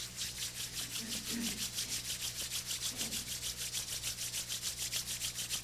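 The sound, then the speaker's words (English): Palms rubbed together briskly during a guided hand exercise make a soft, rhythmic swishing friction with many quick, even strokes that stay faint and steady throughout. “Open the palms. Fold your palms. And rub the palms.”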